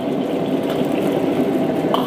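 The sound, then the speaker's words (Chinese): Scallions frying in cold oil added to a hot pan: an even, continuous sizzling crackle at steady loudness throughout, with no voices. “热锅凉油，加入大葱。”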